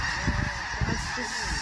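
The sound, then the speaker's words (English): A flock of snow geese honking overhead, with many overlapping calls forming a dense, continuous clamor of nasal honks that rise and fade in bursts. “And that is the sound of a sky full of birds.”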